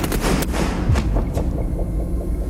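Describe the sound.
A firing squad's rifle volley at an execution in a fort south of Paris: a few sharp, overlapping cracks in quick succession over a dense, steady rumble.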